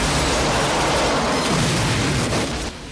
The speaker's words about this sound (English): But Forget blasts the truck with his machine gun and it explodes